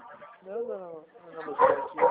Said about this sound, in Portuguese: Peraí, só um instante para encontrar o portão por causa do cachorro. Tranquilo. Porque isso daí fica latindo, mas pode falar.